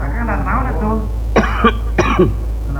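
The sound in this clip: A person coughs after a short voiced groan, giving four harsh bursts in two quick pairs over a constant low hum.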